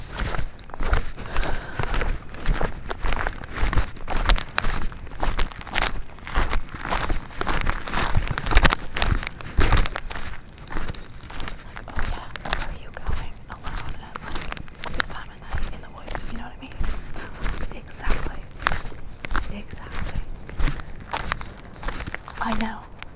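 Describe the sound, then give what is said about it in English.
Footsteps walk away from water, an ongoing, uneven series of many steps, with a voice talking over them at times. “Okay, so I'm walking away from this water again.”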